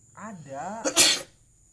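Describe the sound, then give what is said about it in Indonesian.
A person sneezes once, set off by cigarette smoke outside a boarding house: a drawn-out voiced intake builds up, then one sharp, loud, breathy burst cuts off quickly. “saya bersin bukan corona, ini ada asap rokok ini di depan kosan ya.”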